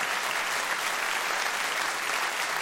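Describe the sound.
Audience applause welcoming the SWR Big Band and strings, an unbroken, even downpour of clapping from a large crowd that stays at a steady level for the whole stretch.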